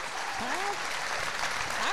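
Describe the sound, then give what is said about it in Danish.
Audience applause as a comedian comes on stage at a Danish stand-up show. Fairly quiet, continuous clapping is heard, with a voice speaking over it. “så giv en stor hånd til Lis Rytter!”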